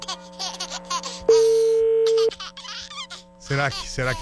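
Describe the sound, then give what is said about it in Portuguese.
An outgoing telephone ringing tone while calling someone: a single steady, mid-pitched beep lasting about a second, with people talking and laughing before and after it. “vamos ligar pro Léo Dias, lógico. Vamos ver.”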